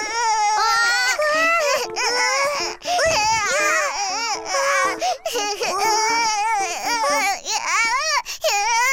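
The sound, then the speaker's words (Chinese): Baby boy crying loudly, a continuous run of high, wavering wails and sobbing breaths that rise and fall throughout, with only brief catches between cries and no other sound over it. “你别哭了，姐姐不催你长大了，不要再哭了。”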